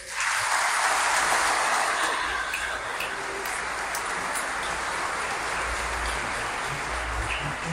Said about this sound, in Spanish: alce la mano quien viene por primera vez. Un aplauso a ellos.